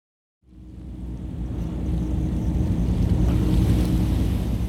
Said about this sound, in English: Hiroshima's Ujina Harbor was a center of Japanese shipbuilding and a major port for the Navy during the country's years of Asian conquest.